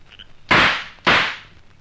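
Two sharp, loud cracks from a pipe fired as a makeshift gun, each a sudden burst that decays quickly, the pair about half a second apart.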